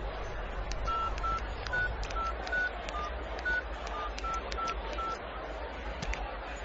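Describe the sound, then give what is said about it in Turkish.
Touch-tone dialing on a telephone: a quick series of short, evenly spaced beeps at slightly shifting pitches over a low steady hum, ending in faint line noise. “Acaba Suzan eve geldi mi? Nergis Hanım'ı arayıp bir sorayım.”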